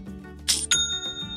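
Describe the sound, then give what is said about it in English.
Sale notification chime from an online store platform: two quick, bright metallic dings, like a small bell, ring out in rapid succession over a low, steady background tone. “And there is that sound again. It's the sound of another sale on Shopify,”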